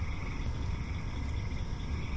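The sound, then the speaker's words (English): Cricket frogs clicking outdoors in a dense, continuous chorus of rapid, overlapping clicks that holds at an even level throughout. “the clicking sound are the cricket frogs”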